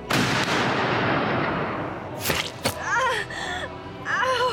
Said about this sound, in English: This isn't a lightweight gun, and it's not bullets you're shooting here.